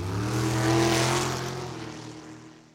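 A race car engine revs at Alaska Raceway Park, a loud roaring drone with strong low harmonics that swells to a peak in the first second, then gradually fades away.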